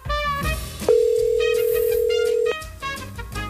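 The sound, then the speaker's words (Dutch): A telephone dial tone sounds while a call is being placed. The steady, unbroken tone holds for about a second and a half, with other tonal sounds before and after it. “we gaan even bellen”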